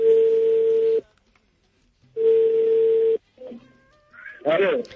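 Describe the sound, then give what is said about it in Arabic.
A telephone call ringing out: two steady, mid-pitched ringback tones, each about a second long with a silent pause between them, followed by brief clicks and a voice starting at the end. “ممكن نتصل بصاحبه أنا ما أعرف اسمه بس عندنا الرقم”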